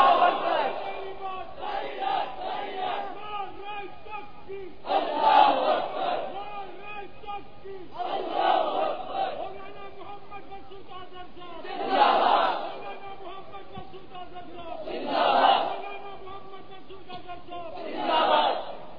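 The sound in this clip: A large crowd chanting Allahu Akbar in reply to calls of Nara-e-Takbeer: loud massed shouts swell up repeatedly at regular intervals, about six times, with a quieter voice and crowd murmur between the bursts.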